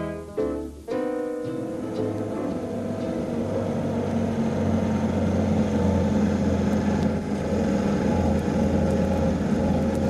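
A car drives along with a steady, low engine hum that continues evenly for about ten seconds, fairly quiet and without sharp events.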